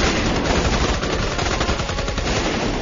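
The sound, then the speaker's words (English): Automatic gunfire from full-auto centerfire weapons rattles in dense, rapid bursts, with sharp cracks blurring into one loud, continuous clatter throughout. “Semi and full auto centerfire weapons clattered, and black powder blasters unleashed thundering booms.”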